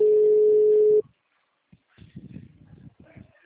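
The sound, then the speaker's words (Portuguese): A phone line rings back during an outgoing call with a single steady mid-pitched tone lasting about a second. Silence follows, then faint muffled voices. “Tô ligando pra Elza.”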